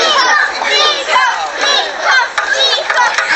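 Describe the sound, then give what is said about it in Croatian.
Children cheering and shouting on a town bridge during a sailing race: loud, high-pitched, overlapping voices that rise and fall in repeated surges. “Upravo su djeca bila najvatreniji navijači koji su se okupili na gradskom mostu.”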